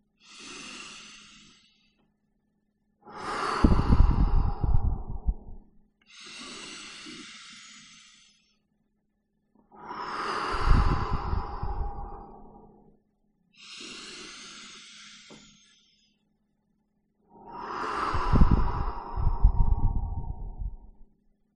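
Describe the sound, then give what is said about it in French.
Three slow, deep human breaths, each a soft, airy inhale followed by a louder, longer, hissing exhale, in an even, unhurried rhythm with pauses between. “Et maintenant, à votre rythme, sans vous presser, vous faites 3 respirations profondes.”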